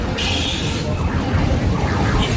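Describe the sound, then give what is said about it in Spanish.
Busy fairground din, a dense, continuous wash of noise with wavering electronic tones and mingled voices running throughout. “¿Así suena una feria?”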